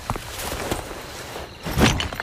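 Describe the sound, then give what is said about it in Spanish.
A ceramic piece breaks in a single brief, bright crash near the end. Before it come soft scattered rustles and taps. “Ay, que lo has roto. ¿Qué es lo que he roto? Joder, la cerámica que iba a devolver.”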